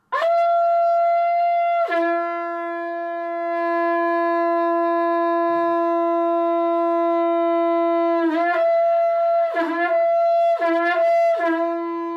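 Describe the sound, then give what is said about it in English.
A conch shell horn, blown as a daily act of thanksgiving, sounds a loud sustained buzzing tone that drops to a lower steady pitch early on, then breaks into several short dips and re-attacks toward the end. “That sound is a shankha. It's a horn made from a conch shell, and it's often played in the morning or in the evening as a way of giving thanks.”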